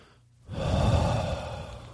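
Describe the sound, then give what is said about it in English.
A single deep breath: after a short quiet moment, a broad, airy rush of air rises quickly and holds steady for more than a second before gently easing off. “Take a deep breath”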